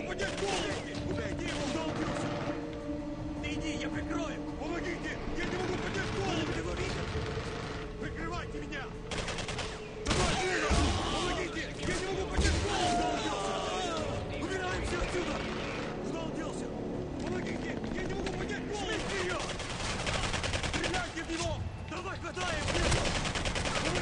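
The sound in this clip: Gunfire from a double-barrel shotgun in a video game, with repeated shots over a continuous bed of game sound across the whole clip.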